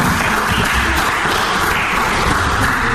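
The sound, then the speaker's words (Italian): Audience applause after a talk: a loud, dense wash of clapping that holds steady for the whole stretch without any break. “non so, gli applausi, grazie a voi.”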